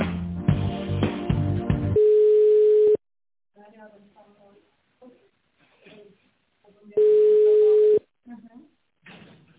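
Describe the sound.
Telephone line tones sound while a call is being transferred. A brief burst of music leads into a steady, flat one-second beep. Then comes a few seconds of talk, and a second identical beep follows.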